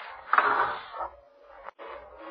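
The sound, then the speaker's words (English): Mechanical whirring of an express elevator car descending in a Midtown Manhattan office building, a steady droning hum with faint creaks, broken by one sharp click before the drone resumes. “the Norfolk Building in Midtown Manhattan, waiting for the express elevator to take you to the lobby. The first passengers were on the 21st floor. 21, going down, please. Express car, going down.”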